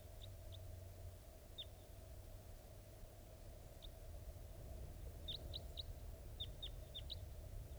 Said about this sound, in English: I think wild birds are flying around somewhere nearby.